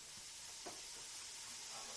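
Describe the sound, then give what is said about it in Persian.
Onion and meat fry in a pan with olive oil, giving a faint, continuous sizzling hiss that stays steady throughout with no voices. “پیازم داره کم کم همراه با گوشت سرخ میشه.”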